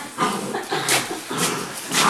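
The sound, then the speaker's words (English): Dogs giving a few short yelps or barks with whimpering, spaced bursts over a steady low background noise. “They're beautiful dogs.”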